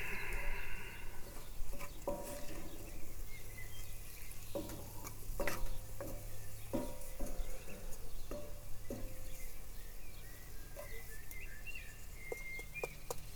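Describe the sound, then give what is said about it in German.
Minced meat and vegetables stirred together in a frying pan, about 150 grams of mince, with a steady sizzle and frequent scraping clicks of the utensil throughout. “Jetzt wird das Gemüse mit dem Hackfleisch schön durchgemengt.”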